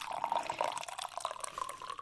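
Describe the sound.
Coffee being poured, a continuous gurgling, bubbling trickle of liquid with a steady watery tone and no voices.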